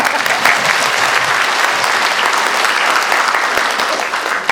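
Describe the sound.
A round of applause from the audience at a Buddhist sutra lecture: loud, dense clapping from many hands, sustained at a steady level throughout with no break.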